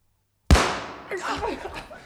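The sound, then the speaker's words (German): A single sharp gunshot, the third shot fired by a robber captain, cracks out of silence and decays over about half a second before a voice starts speaking. “Der Hauptmann! Er muss zum dritten Mal schießen!”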